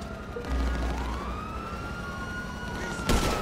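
Police car siren in a video game, a wailing tone that sweeps upward and then holds steady over a low rumble. A short burst of noise comes near the end.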